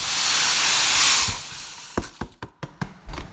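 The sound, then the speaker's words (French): Dry semolina is poured into a round, shallow aluminium dish over salt. It makes a loud, steady hissing rush that fades, followed by several light, sharp taps. “Et ensuite, on verse la semoule.”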